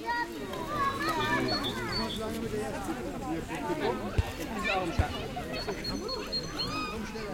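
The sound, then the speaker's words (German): Children playing at a playground in a forest: many overlapping young voices shout, call and chatter continuously, with a couple of sharp knocks partway through. “Spielplatzgeräusch nervt, weil schreiende Kinder nerven, aber so in dem Wald hat das eine ganz andere Akustik. Und ich habe es, ja, aufgenommen.”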